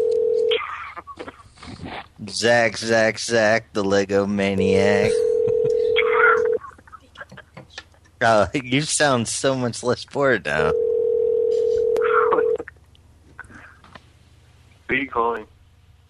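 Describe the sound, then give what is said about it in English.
Telephone line tones during a call: a few long, steady, low hum-like tones alternating with stretches of people talking, with the tone sometimes sounding under their voices. “Who are you calling? Someone new?”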